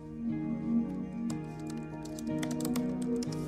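Fingers type on a laptop keyboard, a quick, irregular run of many light key taps over a sustained musical backdrop.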